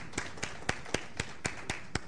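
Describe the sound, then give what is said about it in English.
Audience applause in the form of sharp, evenly spaced claps in unison, eight crisp beats at a steady, brisk rhythm with a faint background wash between them. “Let's give a big round of applause for Glenda and Gloria.”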